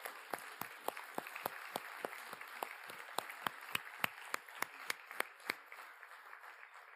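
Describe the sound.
Applause as guests are welcomed to the stage: quiet, crisp claps fall in an even rhythm of about three per second over a faint wash of clapping, then stop shortly before the end.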